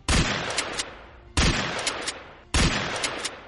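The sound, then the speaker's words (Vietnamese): Pump-action Remington shotgun firing: three loud, evenly spaced blasts, each with a sharp crack followed by a long decaying rumble. “Mập Mạp hét lớn một tiếng, liên tục kéo động súng không nòng xoắn, khấu động cò súng bắn liên tiếp 5 phát”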